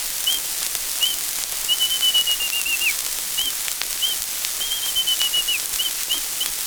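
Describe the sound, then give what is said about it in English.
A robin's alarm call: thin, high whistled chirps, a few short notes and a longer run of rapid chirps ending in a downward slur, the pattern repeated twice, fairly faint over a hissy background. “The rabbit and squirrel listened and heard a robin chirping an alarm.”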